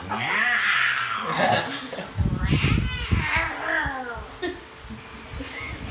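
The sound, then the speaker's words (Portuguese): During a tabletop role-playing session, a person imitates a lion's roar with a rough, growly vocal rumble, while other voices talk over and around it. “Eu não consigo rugir que nem um leão de verdade.”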